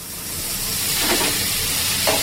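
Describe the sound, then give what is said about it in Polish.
Sizzling as a small splash of red Pinot Noir from a local vineyard is poured from a glass into a hot pan with chili, thyme, olive oil and black pepper: a steady, loud hiss that swells slightly. “Po czym z kieliszka płynie na patelnię czerwone Pinot Noir z tutejszej winnicy, choć jest go niewiele.”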